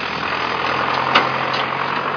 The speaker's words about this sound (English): as a huge truck's passing me by right now